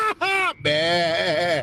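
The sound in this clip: A human voice imitates a goat's bleat in three wavering, nasal bursts. The third bleat is the longest and quivers throughout.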